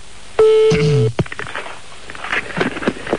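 A telephone number being dialed: a steady tone is followed by a quick run of clicks, then scattered noisy bursts.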